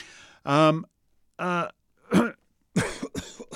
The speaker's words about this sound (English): sorry about that. It's got a little... Got a little choke in my throat there.